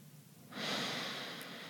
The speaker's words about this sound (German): Wir atmen ein und wir atmen aus. Wir atmen nochmal ein und wir atmen nochmal aus.